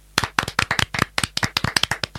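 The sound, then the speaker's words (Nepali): Hands clapping in a classroom as students applaud a classmate's poem: a brisk run of many sharp, crisp claps, slightly uneven in rhythm, from a few people clapping together without talk. “सम्झनालाई सुन्दर कविताका लागि ताली बजाएर स्याबासी दिउँ त।”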